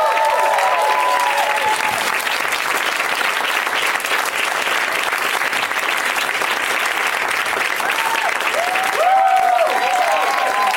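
Loud audience applause welcomes three guests onto the stage. Dense, even clapping runs the whole length, with a few whoops and cheers rising above it near the start and again toward the end.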